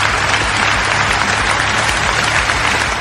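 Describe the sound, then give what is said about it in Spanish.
Loud audience applause welcoming a host as a show begins, a thick, unbroken wash of clapping hands that stays steady and strong throughout the brief stretch, with no voices breaking through. “Ya, ya basta con los aplausos.”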